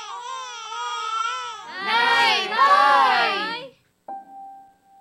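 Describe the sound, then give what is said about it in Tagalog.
A baby crying in loud, wavering wails, preceded by a steadier high-pitched voice. After a short silence, a brief clear tone follows. “Nay, umiyak na naman Nay, si Anna!”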